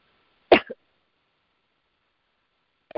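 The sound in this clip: A person with a tickle in the throat gives a sharp cough with a short catch after it, then falls silent before another cough starts at the very end.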